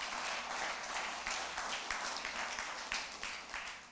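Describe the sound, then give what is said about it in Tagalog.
A church audience applauds the Lord, with dense, steady clapping that holds at an even level for several seconds. “Once again, palakpakan natin yung Panginoon.”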